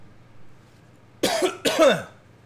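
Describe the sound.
Two harsh coughs from a person with phlegm in the throat, in a room made hot by the summer heat. They come in quick succession, loud against an otherwise quiet background, with no talk.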